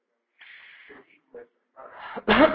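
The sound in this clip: A single sneeze interrupts an Arabic lecture on the book of manners in Sahih al-Bukhari. Brief voiced sounds come first, then a breathy intake builds into one sharp, loud, explosive burst near the end.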